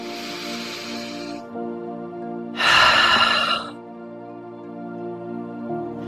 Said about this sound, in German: schließe deine Augen und nimm ein paar Atemzüge.